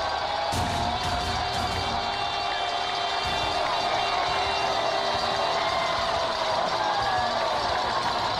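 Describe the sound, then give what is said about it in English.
Crowd noise at a high school football state championship game at Tucker Stadium on a cold December night, with the score at 28-7. Cheering and whoops rise from a continuous, dense roar that carries steadily throughout. “Victory formation, 28-7. Listen to the crowd.”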